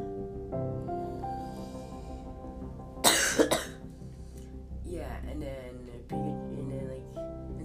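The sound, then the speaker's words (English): Harsh coughing from someone choking on something stuck in the throat: a sharp burst of a couple of coughs midway, followed by a rougher, throaty hack, with talking around them. “Oh, God, this got stuck in my throat.”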